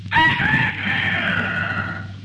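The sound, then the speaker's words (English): A rooster crows in the morning, a single loud, strained call that starts sharply and stretches into a long, hoarse, gradually fading cry. “Darling, you're snoring. No, that's the rooster. It's morning.”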